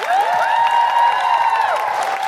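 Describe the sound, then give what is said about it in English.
An audience at a live comedy show applauding in a steady, dense wash of clapping, with cheering voices mixed in throughout. “just for the podcast, a big round of applause for Catherine Bohart”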